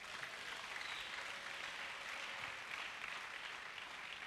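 A church audience applauds in praise of the Lord, a steady, dense wash of clapping that holds an even level throughout with no breaks or pauses.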